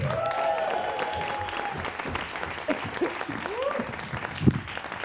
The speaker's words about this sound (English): Could you please put your hands together for Michelle Brazier?